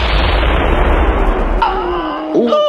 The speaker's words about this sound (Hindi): दुश्मन की एक गोली उनकी छाती में आ लगी।